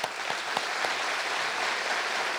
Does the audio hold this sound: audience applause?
yes